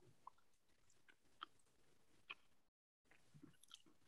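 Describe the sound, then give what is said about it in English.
Soft, moist chewing of fairy bread spread with too much butter, with a few faint crunchy clicks and mouth sounds, broken by a brief silence before the chewing resumes. “Here's our fairy bread. Okay. I think I put too much butter on mine.”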